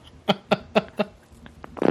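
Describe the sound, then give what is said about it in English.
Low, fart-like creaks from a microphone boom arm being moved up and down: four evenly spaced, prominent squeaks, then fainter creaks and a rising burst of rustling noise at the end. “No, it's me moving the arm of the mic microphone going up and down. It really sounds like you're farting.”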